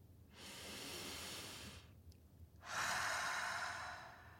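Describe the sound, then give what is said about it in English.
A deep breath taken slowly: one long, airy inhale, a short pause, then a longer and slightly louder exhale. No voices are heard. “Maybe you'd like to take a deep breath. Come on, let's do it.”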